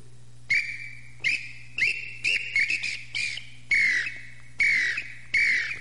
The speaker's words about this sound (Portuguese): Eita, que o Lambu tá cantando, e o Lambu tá cantando, né? Nesse maravilhoso dia de sábado aí, amanhecendo, e o Lambu cantando, isso é bonito demais, né?